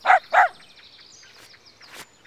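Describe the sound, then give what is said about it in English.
Two short, sharp barks from a black-and-white pet dog, close together at the start, followed by only faint low background noise. “And we've got a pet dog. Look, she's black and white.”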